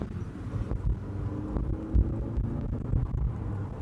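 Engine rumble from a car driving on the road: a low, throbbing drone with wind noise and hum that stays steady, with a few soft bumps and no talking.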